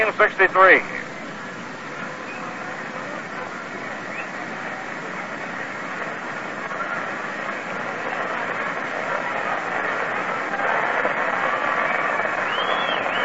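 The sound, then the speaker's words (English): Baseball crowd at the Polo Grounds during the seventh-inning stretch of a 1962 Dodgers–Mets game, a broad, steady murmur of many people with a man talking over it. “Now the crowd up for the 7th inning stretch in the Polo Grounds.”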